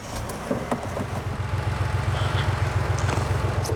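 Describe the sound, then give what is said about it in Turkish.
A car engine idles steadily with a low, rough, rhythmic rumble and faint ticking above it. The car was bought used and is thought to have a loose wire that was not making contact. “Çalıştırsana motorun sesini duyalım.”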